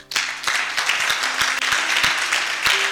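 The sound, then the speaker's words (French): A church audience applauds to acclaim God, a dense, continuous round of clapping with a few sharper claps standing out. “On va acclamer Dieu pour Emmanuel et son frère.”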